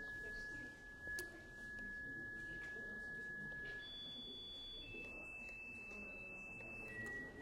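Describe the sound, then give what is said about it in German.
A faint, steady sine tone holds one pitch, then shifts to higher pitches in distinct steps partway through, with each pitch held briefly before the next change. “was man hier sieht, ist ein Sinuston, dessen Frequenz sich verändern kann. Ja, wenn ich da raufgehe, dann wird er immer höher.”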